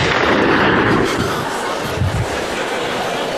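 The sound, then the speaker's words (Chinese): A rifle gunshot: a loud, broad blast at the start that fades into a rumbling tail over about a second, then a dull low thud partway through. “这是真家伙，你干嘛浪费我一个子弹啊？”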